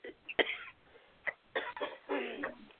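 Coughing from something stuck in the throat: a few sharp, harsh coughs with short pauses between them, the last ones bunched closer together.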